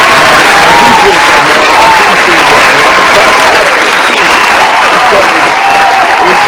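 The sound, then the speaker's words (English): Loud, sustained applause from a crowd of many hands, a thick unbroken roar of clapping with crowd noise mixed in, staying at full strength from start to end. “So we just want to give you a flowers, man, and give you a hand clap.”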